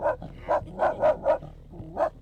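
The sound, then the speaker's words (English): Dogs bark ferociously from a boat at two muskox grazing on shore: six sharp mid-pitched barks come in an uneven run, five close together and then one more after a short gap, fairly faint over low background noise. “They giggle as the dogs ferociously defend them against 2 muskox grazing on shore.”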